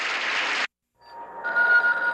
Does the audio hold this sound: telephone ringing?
yes

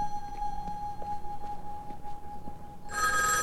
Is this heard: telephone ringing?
yes

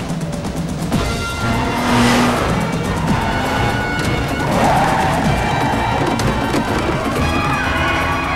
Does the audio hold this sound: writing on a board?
no

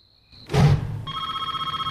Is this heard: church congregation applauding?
no

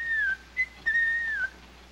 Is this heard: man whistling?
yes

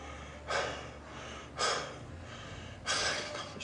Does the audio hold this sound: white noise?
no

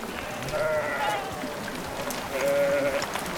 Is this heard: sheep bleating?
yes

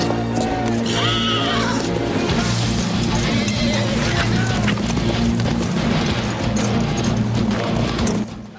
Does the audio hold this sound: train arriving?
no

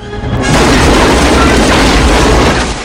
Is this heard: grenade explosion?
yes

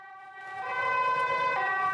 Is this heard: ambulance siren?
yes

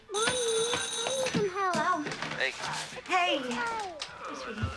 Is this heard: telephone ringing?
yes

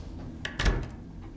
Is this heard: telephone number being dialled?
no

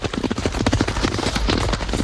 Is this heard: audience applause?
no

